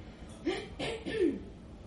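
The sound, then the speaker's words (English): A man clears his throat while walking along, making three short, rough, gravelly bursts in quick succession, moderately loud against a quiet background. “He nods, takes methodical steps and clears his throat a second time.”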